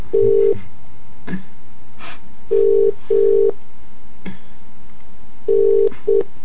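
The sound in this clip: Ringback tone of an outgoing telephone call: steady, mid-pitched electronic beeps in a repeating double-burst cadence, short pairs separated by longer gaps, with no talk.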